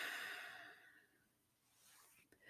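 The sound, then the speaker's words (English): A deep exhale closes a guided breathing exercise, a soft breathy rush that fades over about a second into near silence, followed by a faint tiny click. “Hold it in and let that just radiate throughout your whole body. And exhale one final time.”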